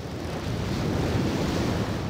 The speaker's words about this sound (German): Und wir brauchen dazu unbedingt nochmal Wellenrauschen.